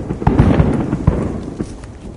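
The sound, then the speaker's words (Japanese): A large fireworks display, held every day, explodes in many loud bursts and pops with crackling, overlapping booms rolling on without pause. “わすごいなこの花火。こんなの毎日やってんだ。これ地方の花火大会よりもでかいです。”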